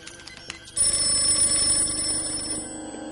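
A telephone ringing in a 1999 science-fiction film scene: after a short quieter stretch, a bright, continuous electronic ring starts abruptly and holds at a steady level over a low background hum, with no talk.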